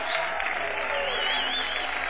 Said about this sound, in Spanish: Aplauda, silbe, zapate.